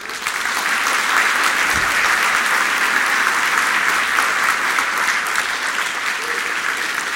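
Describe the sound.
An audience applauds to welcome author George Saunders to the stage. The clapping is loud and sustained, dense and steady from start to finish with no pause.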